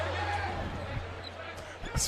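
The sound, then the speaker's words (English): A basketball hits the rim hard during a BYU college basketball game, giving a resonant, gong-like clang. The sound is faint, set against a low hum and soft crowd noise. “This is making it sound like Notre Dame Cathedral with the gongs and hitting the rim so hard.”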